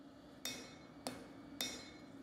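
A knife smith hammers steel in his workshop in Hannover-Döhren: three evenly spaced, ringing blows, each with a bright metallic tail, fairly quiet against a low steady hum.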